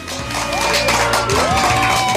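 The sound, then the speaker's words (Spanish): Audience applause: a loud, sustained burst of many clapping hands with cheering voices and a rising whoop blended into the clatter. “Eso realmente merece un aplauso.”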